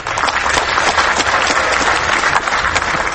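Applause from an audience of compatriots for a film award winner at a ceremony in his home country: dense, steady clapping that stays loud and even throughout without pause.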